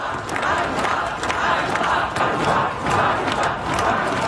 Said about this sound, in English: where protesters are gathering in the capital Kyiv and other cities around the country after the surprise sacking of the country's popular defence minister.